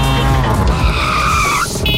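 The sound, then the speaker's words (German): Tyres skid as a tuk-tuk drives hard. A loud, sustained screech rides over engine roar, followed by a short, higher squeal near the end. “ihr müsst gucken, wenn das Tuk-Tuk durch Deutschlands Bigste Beats fährt, das klingt so.”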